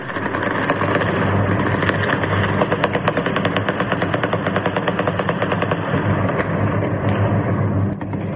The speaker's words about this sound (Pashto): مجاهد په خپل ټوټر ولیکل، په کابل ښار کې د ډزو غږونه د خوشحالۍ دي